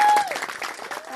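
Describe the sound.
An audience applauds at an anniversary gathering of a social movement with a dense, steady patter of many clapping hands throughout. A brief steady tone sounds at the very start.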